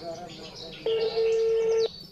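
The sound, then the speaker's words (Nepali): A telephone number is dialed, heard as a single sustained electronic beep of about a second that starts and stops abruptly over a quiet low background hum. “अब आफै phone गर्नु पर्यो।”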